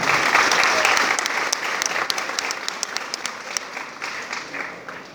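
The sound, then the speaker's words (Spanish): Audience applause at a campesino assembly event in Colombia: dense, loud clapping from a crowd, starting full and gradually thinning, with a few sharper individual claps standing out as it tapers. “Un aplauso para él.”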